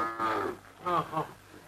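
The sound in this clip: Cattle mooing near a bullock cart while a felled tree is being hauled. A couple of low, drawn-out moos with rich harmonics sound one after another, with a short gap between them and no talk over them.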